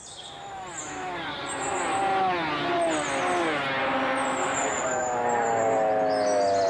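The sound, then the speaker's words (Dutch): Motorcycles roar in the distance at a motor race, several engine notes overlapping in a loud, continuous drone whose pitch sweeps up and down as they rev and pass. “Dan hoor je in de verte het geraas van die motoren.”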